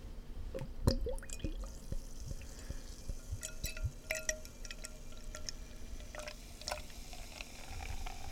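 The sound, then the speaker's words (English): Beer pours into a glass from a brewery founded in the 1850s: faint liquid splashing and scattered drips with small clicks. The sound stays fairly quiet and steady throughout. “Let's give it a pour.”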